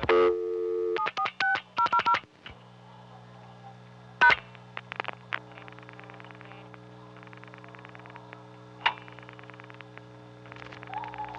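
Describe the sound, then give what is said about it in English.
Touch-tone telephone keypad beeps as a seven-digit number is dialed, ending with the diamond key. A quick run of dual-tone bursts, a pause, then one more tone, followed by a low steady line hum with faint clicks. “so I'm going to dial 746-000, pause, then press diamond, which it will take as the fourth zero.”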